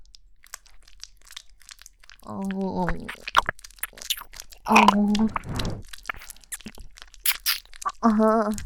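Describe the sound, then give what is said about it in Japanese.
Close, crunchy crinkling and scratchy rubbing from an ASMR ear massage, coming in textured bursts, with a soft voice making brief sounds between them. “ではこのままお耳の中のマッサージもさせていただきますね。”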